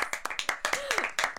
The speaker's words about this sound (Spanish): ¡Un aplauso!